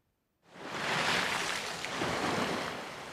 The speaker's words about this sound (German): So schäumte das Meer.